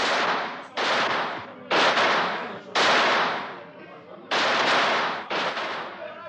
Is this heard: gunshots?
yes

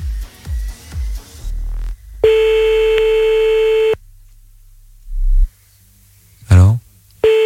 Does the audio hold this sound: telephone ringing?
yes

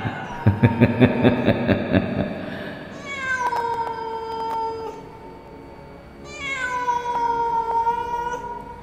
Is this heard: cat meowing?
yes

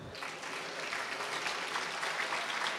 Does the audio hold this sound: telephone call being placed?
no

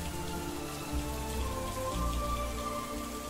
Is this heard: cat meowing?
no

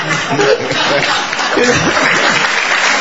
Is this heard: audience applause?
yes

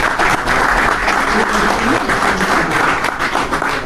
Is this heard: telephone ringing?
no

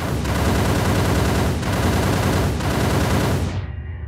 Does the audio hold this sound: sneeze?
no

